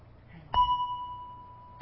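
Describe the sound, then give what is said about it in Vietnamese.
A single strike on a metal bell at a Buddhist temple, giving a sharp onset and then one steady ringing tone that holds clearly for over a second and slowly fades. “trước khi mình thỉnh vang lên một tiếng thì mình phải thức cái chuông để nó rung chuyển. Một cái loại kim khí này nó có cái chuyển động để khi đó mình thỉnh một tiếng mạnh nó không bể.”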